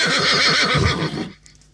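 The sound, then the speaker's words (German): A horse neighs in one loud, long whinny with a rapidly quavering pitch, then stops and leaves near silence. “Ich glaube, mein Pferd hat noch Durst. Ich muss ihm, glaube ich, noch was zu trinken bringen.”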